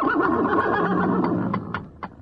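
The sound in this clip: A horse neighs in a long, rough, wavering whinny that fills the first half, then fades while a few short, sharp knocks sound alone.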